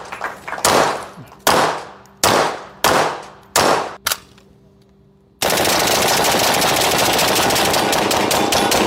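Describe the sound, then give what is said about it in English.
Gunfire at a shooting range, from a campaign video of former Missouri governor and Republican Senate candidate Eric Greitens shooting with Donald Trump Jr.: six loud, sharp shots with ringing tails, then a sustained dense roar. “He pointed to former Missouri governor and then Republican Senate candidate Eric Greitens posting a video of himself at a shooting range with Donald Trump Jr.”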